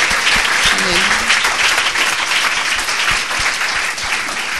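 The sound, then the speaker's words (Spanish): A church audience applauding during a bilingual Spanish-English sermon: dense, steady clapping that stays loud throughout, with a voice heard briefly early on. “Dele un aplauso al Espíritu Santo en esta mañana.”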